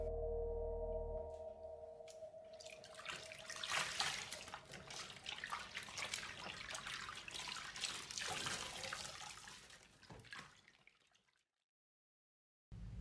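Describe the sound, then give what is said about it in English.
Water runs and splashes during a foot-washing, a steady rushing stream over a low hum that thins out and stops shortly before the end. “Every inch of me cringes at the thought of washing yours. But I know my feet need it. So, here we go.”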